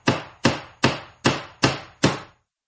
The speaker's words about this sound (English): Yeah, let's just stick with the hammer.